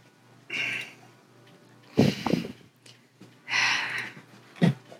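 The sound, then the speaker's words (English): A person sniffs at an object: a few loud, breathy nasal sniffs and snorts in separate bursts, with no talk. “I'm sniffing this thing.”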